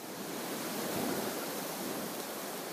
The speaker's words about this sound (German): Der Wind peitscht.